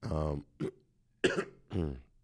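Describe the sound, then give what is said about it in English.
Coughing from a person with a cold: a few short, throaty bursts, some with a voiced, rough tone, separated by brief pauses. “I'm really sorry, guys, for this cold and cough.”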